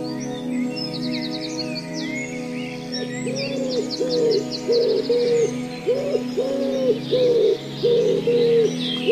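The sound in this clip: A piano and a blended voice imitate the rhythmic cooing of a wood pigeon. Repeated low coo-like phrases begin partway through and recur steadily over sustained tones, with brighter high flourishes above.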